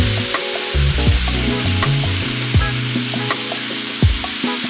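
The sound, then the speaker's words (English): Sliced mushrooms and chopped thyme sizzle loudly in a frying pan, a steady frying hiss broken by repeated scraping strokes as they are stirred, with no talking. “we're going to put in 500 grams of sliced mushrooms. And stir those around. And now we're just going to add the thyme, the chopped thyme.”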